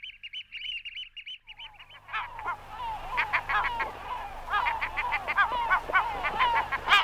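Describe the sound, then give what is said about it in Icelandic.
Gulls calling with harsh, chattering cries that sound like laughter, building into a busy, uneven chorus after a thin, steady high call at the start. “Hefur þú heyrt máva hlátur? Sumum þykja hljóðin í mávum minna á hlátur og finnst því mávarnir alltaf vera að hlæja sér.”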